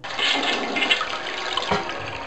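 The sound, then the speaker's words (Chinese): Water flushes loudly as a dentist rinses a hook, a strong gushing rush like a toilet flush that swirls and churns steadily from start to finish. “牙医冲洗钩子的时候，哈克和迪克先后被冲到了污水中。”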